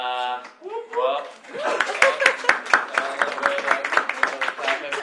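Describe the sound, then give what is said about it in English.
Scattered audience clapping at an event. A brief stretch of voice comes first, then many claps settle into a modest, uneven round that continues to the end. “a little bit of clapping.”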